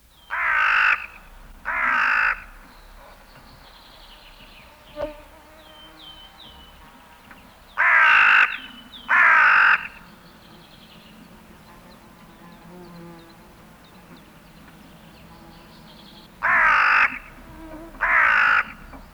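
A hooded crow caws six times, the harsh, rasping calls coming in three pairs separated by long pauses, over a faint steady background hum.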